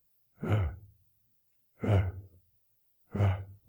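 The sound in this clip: A human voice imitates a leopard prowling at night with three slow, evenly spaced heavy breaths. Each is a harsh, gusty exhale with a low rasping rumble beneath it, heard alone and fairly quiet.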